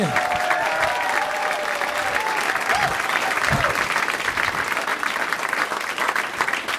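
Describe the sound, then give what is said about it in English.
Steady applause from a stand-up comedy audience welcoming a comedian, dense and continuous for the whole stretch, with faint vocal whoops mixed into the clapping. “Another round of applause for Chris Hardwick,”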